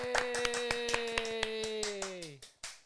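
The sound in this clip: Two hosts trade an elaborate handshake of many quick, crisp hand slaps and claps in a fast, uneven rhythm. A sustained vocal tone runs underneath and drops in pitch near the end.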